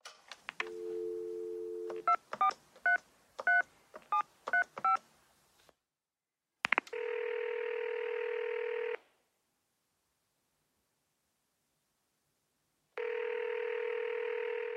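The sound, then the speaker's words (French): Touch-tone telephone dialing, with a brief low dial tone followed by a quick series of keypad beeps, then two long, steady ringback tones separated by silence. “Bon, j'appelle la propriétaire.”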